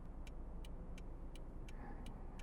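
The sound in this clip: Steady low road and engine rumble inside a moving car, constant and even throughout, with faint, regularly spaced high ticks repeating over it.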